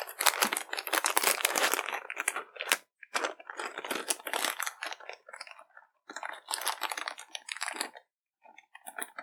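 Crinkling and tearing of plastic packaging as a toy package holding pony figures is opened, with many irregular crackling bursts broken by short pauses.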